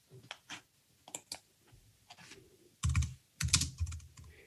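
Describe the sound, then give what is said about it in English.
Someone types quickly on a computer keyboard in irregular bursts of clicky keystrokes. Short pauses break up the runs, and the clusters near the end are louder. “I'll just try and type quickly.”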